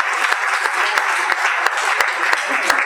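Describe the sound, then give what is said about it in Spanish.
An audience claps loudly during a church service, with dense, steady applause continuing throughout. “Denle un fuerte aplauso al Señor.”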